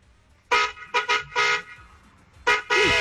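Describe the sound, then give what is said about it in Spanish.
Car horn honking in a voice note: several loud, blaring blasts in an irregular pattern, some short and some held, separated by brief quiet gaps. “Mandó 40 segundos de nota de voz, echando pito.”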